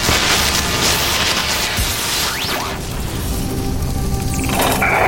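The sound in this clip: An electrical control box, ceiling lights and outlets explode in loud, dense crackling and crashing noise that fills the whole clip, with sweeping whooshes cutting through and a sharp shift near the end.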